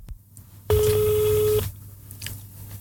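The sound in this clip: A single steady telephone tone sounds while a number for a quarantine helpline is being dialed. It is one clear, continuous beep, about a second long, with faint background sound before and after.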